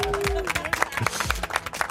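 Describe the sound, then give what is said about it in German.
Employees of a family company clap for a colleague's recent wedding, a moderate scatter of distinct hand claps at an uneven rhythm, with a brief voice heard at the start. “Vielleicht noch großen Applaus von allen Mitarbeitern.”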